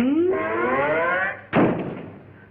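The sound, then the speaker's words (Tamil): A door is shut after a long creak that rises in pitch, then ends in a single heavy thud. The thud fades quickly into near quiet. “முதல்ல கதவை சாத்திரம்”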